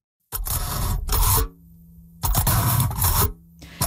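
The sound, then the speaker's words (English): A fork pokes through aluminum foil with crinkly, rasping scrapes in a few loud bursts, each broken into quick tearing pulses and separated by near-quiet gaps. “So that's the sound of a fork poking through aluminum foil.”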